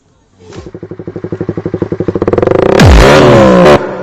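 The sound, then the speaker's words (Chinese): A motorcycle engine sputters and stutters in quick, loud pulses that speed up and build, then merge into a harsh roaring burst that cuts off abruptly. “完了，车抽筋了。”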